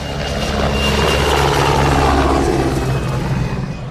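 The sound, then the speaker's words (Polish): Attack helicopters fly over a military training ground during a NATO anniversary display: a loud, steady rotor roar with a low throbbing chop, filling the whole four seconds and easing slightly at the end. “Nad poligonem przeleciały F-16 i śmigłowce szturmowe.”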